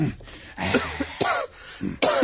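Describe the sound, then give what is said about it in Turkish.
A man with a week-long persistent cough coughs and hacks in a few rough, throaty bursts separated by short gasps, fairly loud with no talking over it. “Çok fenayım. Bir haftadır devamlı öksürüyorum. Gece demiyor, gündüz demiyor. Öksürüp duruyorum.”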